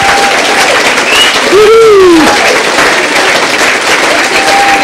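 Loud, sustained applause from a church audience welcoming new members into the family, a dense steady wash of clapping with a brief sliding whistle-like hoot rising and falling over it midway.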